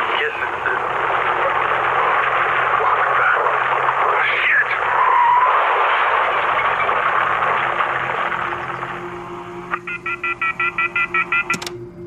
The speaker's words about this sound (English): I expected Tuesday on the Cypress would be jammed up as usual, but it's smooth cruising at 60 through Oakland.